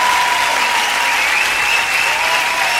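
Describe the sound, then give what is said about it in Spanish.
Audience applause, a loud, dense and continuous clatter of many hands clapping that stays level from start to end. “aplauso para Vicentico.”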